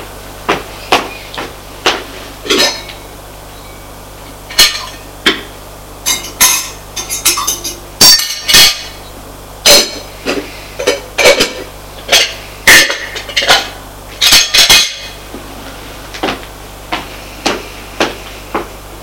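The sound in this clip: Dishes, pots and cutlery clattering while a meal is prepared: many sharp metallic clinks and knocks in irregular bursts, some single and some in quick clusters, loud against a quiet background.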